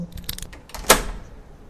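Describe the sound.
An old door lock clicks open as it is picked with the awl of a folding pocket knife, and the doorknob turns: a few faint metallic rattles, then one sharp, bright click, with quiet handling afterward.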